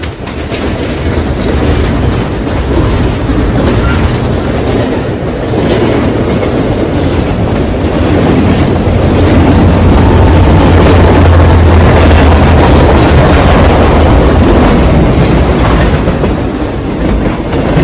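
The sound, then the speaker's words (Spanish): A locomotive train at night approaching and passing, with a loud, continuous rumble and the clatter of wheels on the track that hold steady throughout. “Observa sorprendido una locomotora acercándose.”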